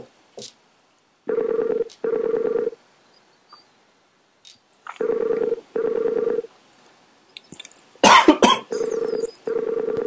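A telephone call's ringing tone sounds as three pairs of steady, buzzy beeps separated by pauses, with a brief burst of harsh noise just before the final pair.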